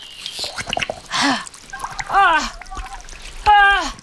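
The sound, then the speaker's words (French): Water poured from a flask onto a body, a few short splashy bursts of liquid between lively voiced exclamations and sighs of delight. “Il reste un peu d'eau dans ma gourde, là. Ça te dirait un peu d'eau sur le corps?”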